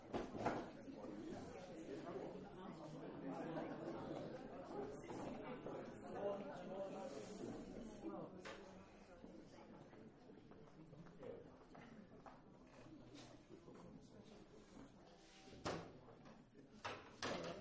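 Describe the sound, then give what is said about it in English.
Chairs being moved and set out, scattered scrapes, knocks and thuds, with people talking in the background throughout, fairly quiet overall. “In case you're now listening to the tape and you're wondering what's going on, we've just put some more chairs out.”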